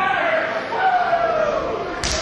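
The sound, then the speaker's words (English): A hard open-hand chop lands in a wrestling match, one sharp smack near the end over a continuous wash of background noise and talk. “Ooh, a hard chop”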